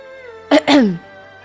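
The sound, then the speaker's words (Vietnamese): A dry cough from outside comes as two quick rasping bursts, the second longer and sliding down in pitch, over a soft sustained tone. “Lúc này, bên ngoài lại truyền đến một tiếng ho khan.”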